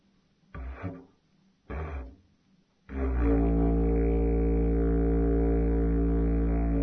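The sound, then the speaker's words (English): Didgeridoo played slowly with the lips at the front of the mouth, giving two short, low buzzing blasts followed by a long, steady drone rich in overtones. “Now, the first thing I want to show you is if you play slowly with your lips in the front of your mouth, it'll sound like this”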